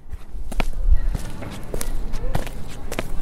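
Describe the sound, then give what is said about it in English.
Footsteps of someone taking a walk: a series of irregular, thudding steps over a steady low background rumble. “Imagine yourself taking a walk.”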